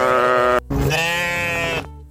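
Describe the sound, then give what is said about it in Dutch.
Sheep bleating: two loud, strongly voiced bleats back to back, the second longer and wavering, then a fainter tail. “een schaap”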